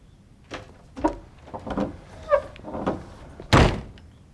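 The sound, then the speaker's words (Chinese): A door is shut: several soft wooden clunks and shuffling handling sounds build up, then one loud, sharp slam lands near the end. “你出去，把门关上。”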